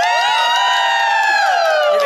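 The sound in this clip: An audience in the Plantasia restaurant in Mexico City cheers and whoops, a loud, sustained, high-pitched chorus of voices that holds steady throughout.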